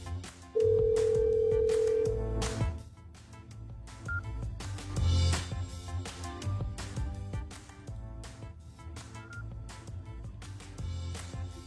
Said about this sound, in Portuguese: Segunda pessoa não atendeu o telefone também